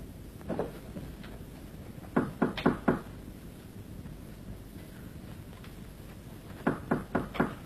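Knocking on a door in a Peking opera stage performance: two quick sets of four sharp knocks follow a fainter earlier tap, over steady background noise.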